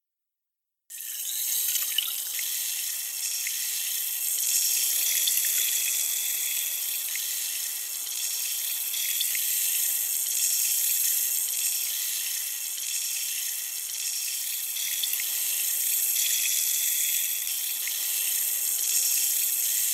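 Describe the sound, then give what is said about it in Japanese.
Flushing water during ear washing, a steady hissing rush that starts after a second of silence and runs unbroken to the end, with no voices. “反対のお耳も洗浄していきますね。”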